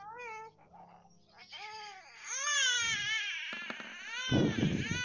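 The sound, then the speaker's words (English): A newborn baby cries in loud, strained wails that rise and fall in pitch, building from short whimpers into sustained crying. “My kid's awake still. Aw, newborn cries.”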